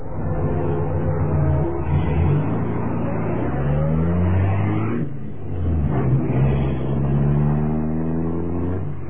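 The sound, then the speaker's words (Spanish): A luxury black car drives away, its engine revving in rising sweeps. The sound dips briefly midway, then climbs again, and stays loud and steady throughout. “Jazmín se alejaba a bordo de su lujoso auto negro”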